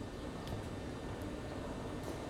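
Quiet, steady station ambience at Gare du Nord in Paris: an even low rumble and hum with a few faint clicks above it.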